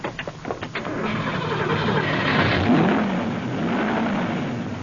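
A car engine turns over after a loose ignition coil wire is pushed back into the coil. A few choppy cranking pulses give way to a steady, rough running drone that holds to the end.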